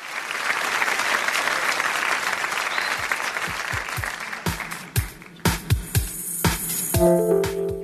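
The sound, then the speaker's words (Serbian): Audience applause: dense, steady clapping from a crowd for about five seconds, then thinning into sparser, louder individual claps. “Momak je pravi optimist, zato je i dobio aplauz”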